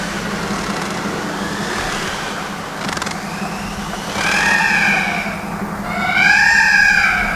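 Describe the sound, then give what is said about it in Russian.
Peacocks calling from a cage in a botanical garden: two loud, wailing, harmonic cries in the second half, each swelling and bending in pitch over a steady low hum. “Что это? Павлины проклятущие. Их тут в ботаническом саду в клетке держат. Прям удивление берет. Такая птица важная, а голос у нее вроде в насмешку.”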